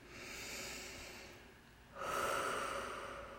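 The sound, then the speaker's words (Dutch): Deep breathing during a guided relaxation exercise: two long, airy breaths, the second one louder and fuller, with no talking. “dat je een paar keer even heel diep in en uit mag ademen.”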